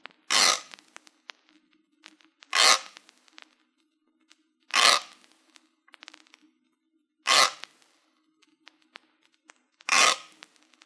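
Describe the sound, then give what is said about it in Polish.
A kitchen grater scrapes in five harsh, evenly spaced strokes, each about half a second long, heard alone in a stereo test that pans the sound from left to right. “Dźwięk tarki powinien być początkowo słyszany skrajnie z lewej strony, a następnie co 45 stopni przesuwać się do środka i dalej na”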